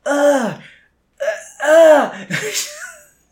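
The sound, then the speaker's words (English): A voice imitates the panting and moaning of someone in pain after falling while running. There are four breathy, wavering groans with short gaps between them, the last one rising into a strained whimper. “So it's weird to hear yourself, like, panting because you were running and also being, like, in pain. It was just, like, the most disgusting sound.”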